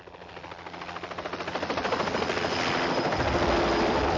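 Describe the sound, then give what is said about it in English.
A remote-controlled aircraft flies in a James Bond film, its rotor and engine giving a steady, rhythmic chopping drone that grows louder over the first half and then holds. “Don't concern yourself with the pilot. One of my less useful people.”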